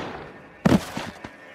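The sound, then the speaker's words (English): A single gunshot fired from the shadows at a house porch in 1935 Ilocos Norte, Philippines: one sharp, loud crack followed by a couple of fainter thuds trailing after it. “When from the shadows, a single shot explodes.”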